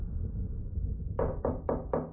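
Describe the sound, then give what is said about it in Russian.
A timid knock on a door: five soft, evenly spaced raps in quick succession near the end, over a low, steady rumble. “В дверь робко постучали.”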